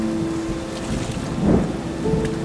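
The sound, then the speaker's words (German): Rain falling over the sea as the sky turns grey: a steady, dense hiss with a low rumble underneath, holding at an even level with a slight swell midway. “Es regnet.”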